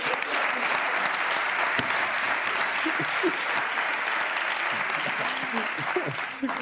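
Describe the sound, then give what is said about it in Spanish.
Steady applause from a computer-generated studio audience on a TV show, a dense, even patter of clapping that holds at a constant level throughout. “Creo que aquí detrás está el público este que hacen por ordenador, que tienen... que está hecho por ordenador, que son todos como los del FIFA.”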